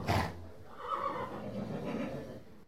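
A horse whinnying: a short, loud burst at the start, then a drawn-out, breathy neigh that wavers at a low, fairly quiet level before stopping.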